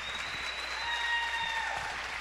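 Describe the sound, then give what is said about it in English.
Applause from an audience after boys performing French music: dense, steady clapping at an even level throughout, with faint sustained high tones running across it. “my applause to the boys”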